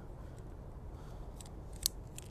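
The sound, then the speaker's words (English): A single crisp snip as the tip is cut off before lighting, one quick sharp cut standing out briefly against an otherwise quiet, low hum. “So you're gonna cut off just a little bit off the top in one smooth motion.”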